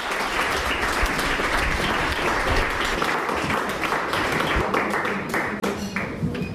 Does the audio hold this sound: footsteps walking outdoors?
no